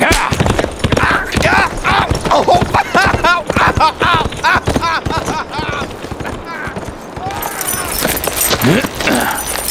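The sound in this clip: Hooves clip-clop steadily as a horse is ridden off, a loud, busy run of rapid hoofbeats that continues through the whole stretch with little change in loudness.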